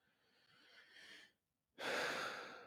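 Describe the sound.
A deep human breath: a long, soft inhale lasting over a second, a brief silence, then a louder, rushing exhale that slowly tapers off.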